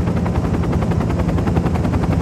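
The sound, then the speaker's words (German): Rapid rhythmic chopping of a helicopter's rotor blades in flight, loud and steady throughout, with a dense rumbling roar beneath the evenly spaced thuds. “Der Hubschrauber nimmt Kurs auf den Leuchtturm.”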